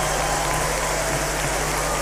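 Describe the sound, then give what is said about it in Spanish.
Audience applause for a singer on an outdoor stage at a commemoration ceremony in Chiloé. It is a dense, rain-like hiss of clapping, steady and unbroken throughout. “En un escenario, recibe el aplauso, por favor, de este público.”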